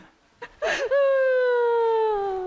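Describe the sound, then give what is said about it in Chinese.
A person crying out in a drawn-out whimpering wail during a scuffle, a short breathy burst followed by a long sustained vocal tone that slowly sinks in pitch. “怎么还真哭了？”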